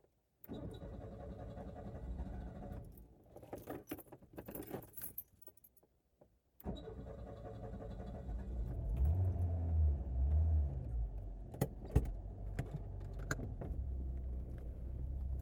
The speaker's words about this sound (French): Petit problème de, démarrage.